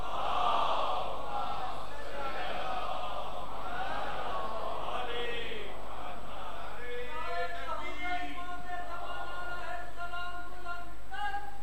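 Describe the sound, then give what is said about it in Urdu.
An audience chants salawat together at a religious gathering, many voices in unison carrying a rising and falling melodic line that turns into a steadier, rhythmic chant. “مل کے نعرہ صلوات.”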